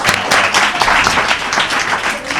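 Applause for someone who has just passed a test, lively clapping with uneven surges in loudness that continues throughout.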